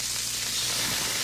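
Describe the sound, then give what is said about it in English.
Smash burgers sizzling at JC's North make a steady, dense crackling hiss that holds at an even loudness throughout, with no pauses. “Fresh, juicy, award-winning smash burgers are sizzling right now at JC's North on the corner of Rockton and Riverside.”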